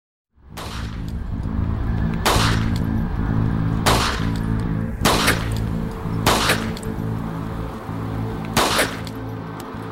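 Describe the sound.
Desert Eagle pistol gunshots: six loud, sharp bursts at uneven intervals over a steady, continuous low rumbling noise bed that runs throughout.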